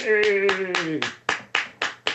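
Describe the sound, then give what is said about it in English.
Slow, evenly spaced single hand claps offered as mock applause. The early claps fall under a sustained voice, and the later ones ring out sharply on their own. “I can't believe you'd applaud something like that”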